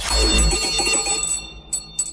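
A bell rings with a bright, metallic tone that fades, followed by two short, high rings near the end.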